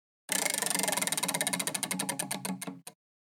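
A prize wheel spins for a golf betting-picks game, its rapid ratcheting clicks gradually slowing and spreading apart until it stops after roughly two and a half seconds.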